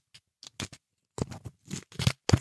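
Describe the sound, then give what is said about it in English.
A football sticker pack being opened and the stickers slid out, heard as many short, soft papery rustles and scrapes in irregular bursts, quiet and with no talking. “Just slide the stickers out. I'm making it interesting for the listener.”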